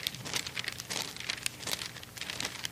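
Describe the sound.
Pages of a Bible being flipped, a papery crinkling and rustling that runs unbroken for about three seconds with small crisp peaks and no voices.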